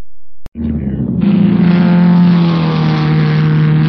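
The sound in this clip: A car engine, driven recklessly, roars up loudly after a sharp click and holds a strong, steady drone whose pitch sags slightly as it goes on.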